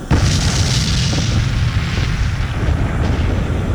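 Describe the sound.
An artillery gun firing a shell: a sudden loud boom at the very start that rolls into a sustained, deep rumbling roar lasting the whole stretch, with no voices.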